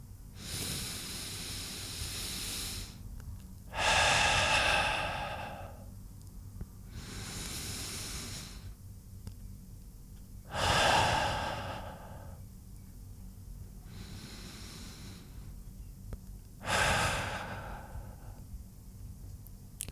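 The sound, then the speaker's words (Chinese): Slow deep breathing: six long, airy breaths alternating between softer and louder ones, evenly paced with quiet pauses and no talking. “那解决的方法是什么？深呼吸。”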